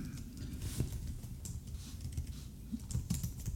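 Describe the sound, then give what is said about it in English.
Typing on a computer keyboard: many quick, light keystrokes patter in an uneven rhythm with occasional sharper clacks, all faint and with no voices. “Oh, I thought you were listening to my typing.”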